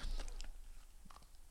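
Biting and chewing a cookie: a few crisp crunches at the start, then softer, quieter chewing that continues to the end.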